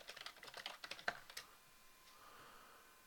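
Typing on a computer keyboard: a quick run of many light, clicky keystrokes in an uneven rhythm, fairly faint and without talk, easing off into near quiet after the first second and a half.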